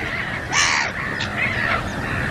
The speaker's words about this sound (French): il se prépare à se défendre contre ces gros oiseaux qui viennent sur lui.